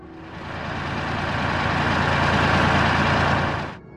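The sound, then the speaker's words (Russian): A heavy bulldozer engine roars as construction machinery clears a path through thickets toward a ruined former factory. The loud, steady, rumbling growl swells slightly, holds for several seconds, then cuts off abruptly near the end. “Двигатель бульдозера взревел.”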